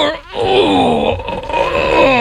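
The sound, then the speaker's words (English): A person imitates the groan someone makes when bending down to pick something up as they get older: a loud, drawn-out low vocal moan that follows a brief dip at the start and holds steady to the end. “You know you're getting older because when you bend down to pick something up, again, you can't do it without going,”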